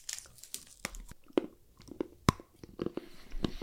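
Crinkling wrapper and crunchy bites as a chocolate bar is opened and eaten, many sharp, irregular crackles and crunches spread across the stretch, with no talking.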